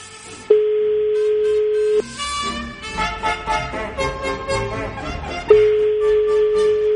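Telephone ringing during a call-in phone call: a steady, flat, mid-pitched tone holds for about a second and a half, breaks off for a few seconds of other sound, then returns just as loud.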